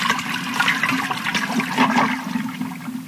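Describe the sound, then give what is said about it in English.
A toilet flushing, a steady rushing gurgle of water over a low hum that lasts about three seconds. “A double flush.”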